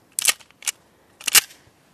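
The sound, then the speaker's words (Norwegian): Metallic clicks of a pistol slide being pulled back to chamber a round: a few sharp, bright clacks in two short clusters separated by a pause, with no voices. “Du kjenner at det går i lås. Så drar du i sleiden.”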